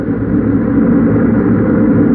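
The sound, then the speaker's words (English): A spaceship roars in for a landing: a loud, steady, low rumbling roar that holds the same level throughout. “Finally, a silver streak appears in the east, and a spaceship roars in for a landing.”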